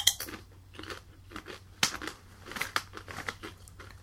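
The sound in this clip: Crunchy durian chips are bitten and chewed, giving many quiet, irregular crunches and crackles in quick succession.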